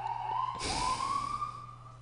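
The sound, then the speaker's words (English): Emergency vehicle sirens pass by, one faint wailing tone that sweeps upward and then holds steady before fading. A low, constant hum sits underneath. “I'm going to let these sirens go by.”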